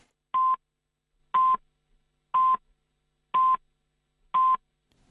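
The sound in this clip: Radio time signal pips sound before a late-night news bulletin in Hong Kong. Five short, steady, high-pitched beeps of equal length come one second apart in a regular rhythm and are separated by silence.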